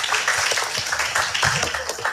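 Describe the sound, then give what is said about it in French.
Clapping from a few people after a weather segment in French-language studio talk: loud, uneven claps with a rough, irregular texture lasting around two seconds, no clear speech on top. “On peut les applaudir.”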